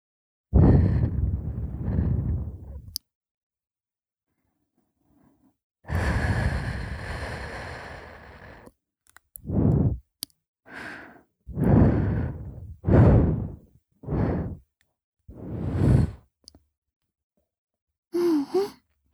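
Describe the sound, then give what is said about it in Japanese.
Soft blowing on an earlobe during an ear-cleaning session: two long, gentle, airy puffs, then a run of shorter breathy puffs with brief silences between them and no talk. “じゃあ、耳たぶをふうふうしてあげるから、今度はちゃんと気持ちよくなろうね。”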